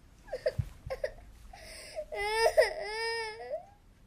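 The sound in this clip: A girl crying: short sobbing whimpers and catching breaths build into longer, high, wavering wails that trail off, heard alone without speech.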